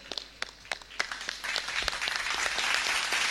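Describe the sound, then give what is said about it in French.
An audience applauds the parishes presented at a religious gathering. A few separate, sharp claps come first, then the clapping thickens into steady, moderately loud applause that carries on to the end. “Merci, chers amis. On va acclamer hein, les paroisses qui sont présentées.”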